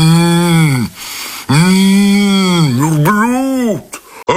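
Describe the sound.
A yoked ox lows in two long, loud, rich-toned calls. The first is shorter and the second longer, with the pitch swelling and then dropping away at the end of each call.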